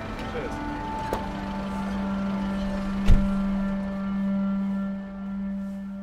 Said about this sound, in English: So we've just arrived at Speaker's Corner in the northeast corner of Hyde Park, just near Marble Arch.